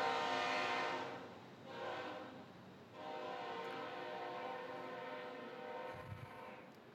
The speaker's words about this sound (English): After the train goes.